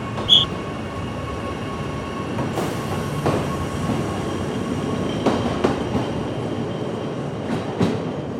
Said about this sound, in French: Après être parti de la gare SNCF de Chamonix, on passe dans la forêt grâce au train.